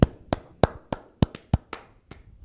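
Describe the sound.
Sharp, evenly spaced claps or taps in a slow series, made by one person imitating a crew member's sitcom-style studio audience clapping on a film set. The beats are crisp and separate, with no voices.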